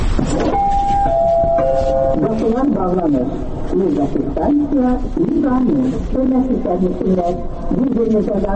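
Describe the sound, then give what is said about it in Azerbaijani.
Three stepped chime tones fall in pitch at a Baku metro train door, then a recorded voice gives a loud door announcement. “Bir 46 ildir Bakı metrosunda vaqonların qapısı hər gün səhər saat 6-dan axşam saat 12-yə qədər bu elanlarla açılıb bağlanır.”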